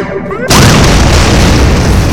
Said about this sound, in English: One strike destroys an ambulance behind them.